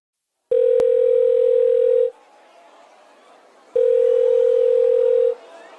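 A telephone rings with two long, steady electronic tones separated by a pause, with faint background noise between them.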